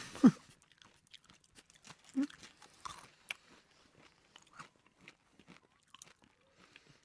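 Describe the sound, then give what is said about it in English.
Crunchy food being bitten and chewed by people eating, heard as a couple of sharp bites followed by many small crisp crunches and soft chewing clicks, faint and without talk. “Sorry that we're eating... Food.”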